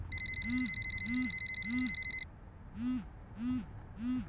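An incoming call on a phone brings a repeating electronic ringtone of six evenly spaced, warbling low pulses. A steady high beeping tone runs through the first half and then stops.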